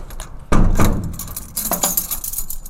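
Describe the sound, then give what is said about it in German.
Metallic clicks and clunks of keys turning in a lock at a prison in northern Germany: a few sharp bursts, a louder one early on and another later, against quiet background hiss. “Und manchmal Schlüssel, die sich im Schloss drehen.”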